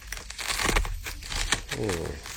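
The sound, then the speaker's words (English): Footsteps crunching through dry leaves, a dense crackling and crinkling that swells and fades in uneven bursts, fairly faint, with a voice briefly heard near the end. “walking through dry leaves”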